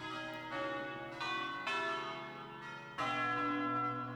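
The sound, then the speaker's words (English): Bells ring in several overlapping strikes, each struck tone swelling over the lingering hum of the ones before, rich and resonant, with no voices. “We're now listening to some bells uploaded to the Apparee sound maps.”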